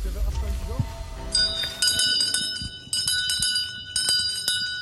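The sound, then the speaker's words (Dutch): Town crier's handbell rung at a town crier competition in the centre of Rijssen: bright, clanging metallic rings repeated in bursts of several strokes, loud over voices in the background. “En dat is dan weer het karakteristieke geluid van die stadsomroepers in Rijssen.”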